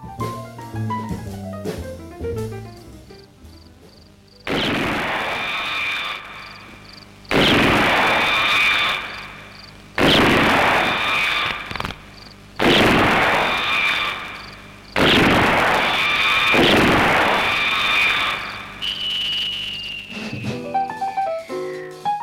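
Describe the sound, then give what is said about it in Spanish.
Gunshot blasts from a western film sound effect ring out one after another, each a sharp loud crack with a long ringing decay. A few tonal notes come before them, and a whining tone falling in pitch closes the run. “Pues no, es un disparo y viene de muchas películas del oeste.”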